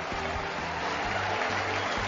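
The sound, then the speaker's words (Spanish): A crowd's ovation fills the center court at Roland Garros in Paris as Rafael Nadal walks out for a clay-court match, a steady, dense roar of cheering and clapping with no break. “en la que sale así con esta ovación Rafa Nadal a pista.”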